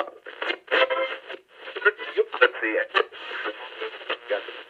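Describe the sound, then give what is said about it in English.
A radio tuning dial effect marking a change of segment: thin, crackly, band-limited sweeping between stations, with brief snatches of voices flickering in and out, continuous throughout. “When you hear that type of a radio tuning dial, you know it's like a different segment.”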